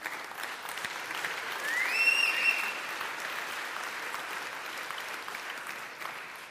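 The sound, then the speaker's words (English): Applause from a church audience welcoming college students at a Sunday service, a dense, steady clapping that swells slightly after the start and carries on evenly for several seconds. “Let's give these college students a hand.”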